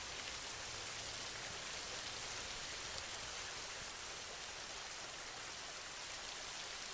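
Steady rain falls as a soft, even hiss with no let-up for seven seconds. It is used for a sleep meditation, and no voices or other sounds break through.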